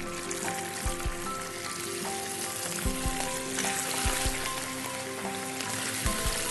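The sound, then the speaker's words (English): Fish frying skin side down in plenty of oil in a pot: a continuous crackling sizzle with scattered pops and a few soft low thumps, with no talking. “And we are going to put our fish with the skin side down into the pot.”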